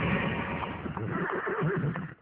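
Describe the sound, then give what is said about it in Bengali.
Horse neighing as a horse-drawn carriage arrives, a loud wavering whinny that runs almost unbroken for about two seconds, with rapid pitch wobbles and no voices. “ঘোড়ার গাড়িতে এমনই সব কথা বলতে বলতে গন্তব্যস্থল সিভার্সে Mrs Saint ক্লেয়ারের বাড়িতে পৌঁছে গেলেন।”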